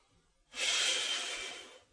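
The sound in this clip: A woman breathes out once in a single long puff, a soft airy hiss that begins suddenly and tapers off slowly over more than a second, with no other sound.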